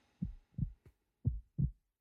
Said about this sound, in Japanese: こんなにドキドキしてる。